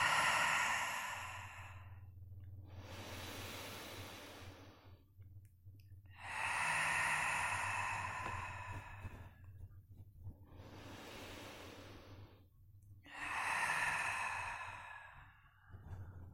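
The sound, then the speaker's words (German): Slow, deep human breathing, drawn in through the nose and let out through the mouth, with several long, airy breaths separated by quiet pauses and no talking. “Ganz nochmal tief durch die Nase einatmen und dann durch den Mund aus.”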